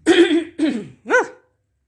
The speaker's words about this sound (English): It was like that little green phlegm guy on that Mucinex commercial.